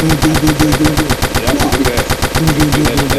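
Gunshot sound effect: a loud, rapid machine-gun-style burst of many shots in a fast, even rhythm, each crack sharp and punchy, running without a break for about three seconds.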